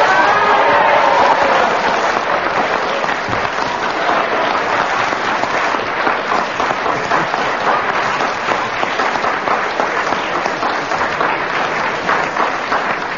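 Studio audience applauding a popular winner in the panel game Just a Minute. The clapping is dense, loud and steady, and it carries on alone for the whole stretch.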